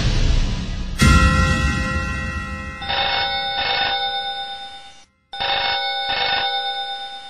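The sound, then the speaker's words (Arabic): A telephone rings at night in a short, tinny, metallic burst pattern, sounding four times as two pairs of rapid bell trills separated by a brief silence, loud and alone with no voices. “التلفون بيرن”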